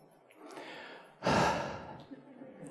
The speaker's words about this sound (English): I'm going to begin by taking a deep breath.